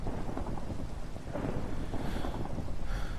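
A rain and thunder background plays as a steady, rushing wash of noise with a low rumbling undertone, fairly faint and even throughout.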